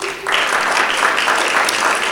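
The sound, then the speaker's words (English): An audience claps for a school worship band: applause swells in after a brief quiet moment, then holds as a steady, dense patter of many hands to the end. “Let's give those guys a clap.”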